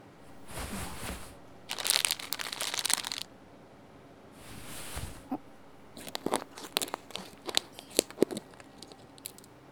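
Crinkling and tearing as a bag of white sugar is opened, faint sharp crackles arriving in several bursts with quiet pauses between.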